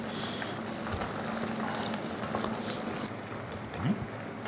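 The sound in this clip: Pork belly simmering in sauce gives off a soft, steady bubbling hiss, faint and even throughout with a few small pops.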